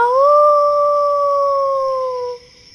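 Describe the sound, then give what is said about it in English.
A wolf howls in one long, clear, tonal call that climbs briefly at the start, then holds a steady pitch for about two seconds before fading out. “Mr. Wolf is hiding behind the trees, waiting for the chance to eat Pinto.”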